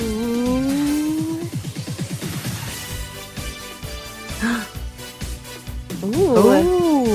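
Ticking of a spinning prize wheel on a shared screen during an online call, with a rapid run of clicks after a rising tone and more tonal effects later.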